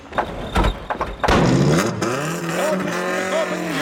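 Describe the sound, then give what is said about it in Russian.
A convertible car speeds away noisily: a thump, then a loud engine roar that revs up, its pitch climbing and holding steady as it accelerates. “Кабриолет с шумом уносится вдаль.”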